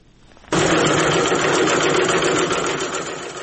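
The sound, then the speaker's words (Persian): Sewing machines start abruptly and run in a steady, loud mechanical whir as ten young girls sew face masks in Faryab province, Afghanistan. “این صدای چرخ ماشین های حیاتی است. ده دختر جوان فاریابی مشغول دوختن ماسک هستند.”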